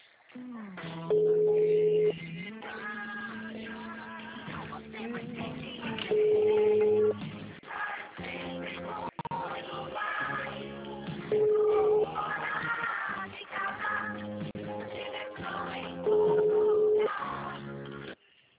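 A mobile phone ringtone plays a repeating electronic melody of steady, sustained tones. The pattern recurs about four times, loud and with a narrow, telephone-like sound.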